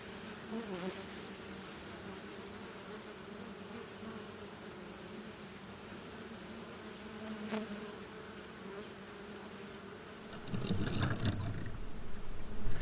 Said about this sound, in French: Là, les abeilles euh, travaillent euh, sur euh, toutes les fleurs qui ont précédé. Le thym, la badasse, le tilleul là maintenant, les ronces